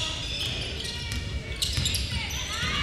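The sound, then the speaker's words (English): A basketball is dribbled during a men's game between Southern Union and Snead State, repeated thumping bounces under a commentator's quick play-by-play talk. “Jefferson gets the rebound, bringing it down the other way.”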